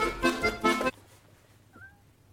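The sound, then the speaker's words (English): A cat gives one short, faint meow with a falling pitch. It comes just after a brief burst of louder sound. “That's a cat.”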